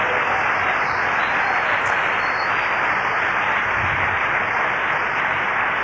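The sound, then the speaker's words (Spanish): Applause from a church audience, an unbroken, even wash of many hands clapping that stays at a steady level from start to finish with no voices on top. “Fuerte el aplauso al Rey.”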